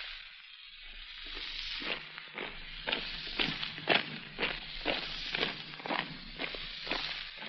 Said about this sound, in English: Take her out, Stepan. This way, comrade. In the middle of the escort. Prisoner and firing party, quick march!